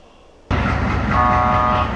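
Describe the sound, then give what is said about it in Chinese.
An international freight train horn sounds as the train departs a Beijing inland port bound for Belarus: a loud, abrupt onset of broad rumbling noise, then a sustained, steady horn tone over it to the end. “在火车的汽笛声中，从北京国际陆港开行的第100列国际班列正式出发，前往白俄罗斯。”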